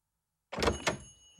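A door opens in a video game as a character exits: after a moment of silence comes a short mechanical clunk and rattle in two quick pulses, then a fading hiss.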